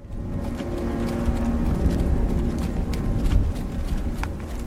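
Horses' hooves clip-clop as a young couple ride off together in Scotland: a steady run of many light knocks over a low rumbling background, fairly quiet.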